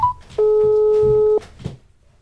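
A telephone call rings out with one steady electronic ring tone lasting about a second. A short tonal blip comes before it, and quieter low sounds follow.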